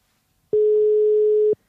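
A telephone ringback tone sounds while a call is being placed: one steady, even burst about a second long, starting and stopping abruptly against silence.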